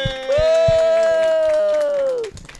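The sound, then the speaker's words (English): A studio audience cheers and applauds as a guest is welcomed to the stage. A long, sustained whoop rides over crowd noise and a few claps, then dips slightly and tapers off near the end. “Please give us a big hand. Welcome to the stage, the great Jess Robinson.”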